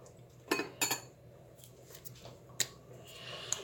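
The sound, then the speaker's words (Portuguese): A metal spoon clinks faintly and sharply a few times against a dish while level spoonfuls of Worcestershire sauce are measured out for a meat sauce. Soft handling noise fills the gaps between the clinks. “Não é qualquer molho, é Lea Perrin mesmo. Vou colocar três colheres dessas. Rasas.”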